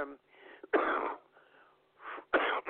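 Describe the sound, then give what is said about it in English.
Coughing fit: a few harsh, loud coughs in quick succession, with softer wheezy breaths and throat noises between them. “And excuse me, just so I had that moment when I was bringing you in, I had a bit of a coughing fit.”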